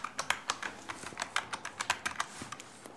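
Typing on a computer keyboard in an office in Celle: a quick, irregular run of many soft key clicks, steady throughout, with no voices.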